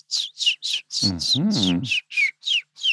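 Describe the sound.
Willow warbler song, in its original form and played slowly or whistled, comes as a steady series of short, high, downward-slurred notes. A low voice sounds briefly beneath them midway.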